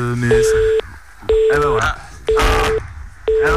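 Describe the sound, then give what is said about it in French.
A telephone busy tone pulses four times after a call to an interview guest drops. Each steady mid-pitched beep lasts about half a second, with equal silent gaps between them and some muddled sound mixed into the beeps. “C'est rien, c'est la technique, on va se refaire et on va conclure. On va le rappeler et on va terminer. Petit problème de téléphone, ça arrive.”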